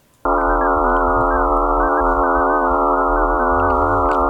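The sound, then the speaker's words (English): Sonified sound of Mars's moon Phobos, a loud, steady, buzzing drone rich in stacked harmonics with a faint wavering. It starts abruptly after a short silence and holds unbroken to the end over a low fluttering hum. “Well, this is the sound of Phobos.”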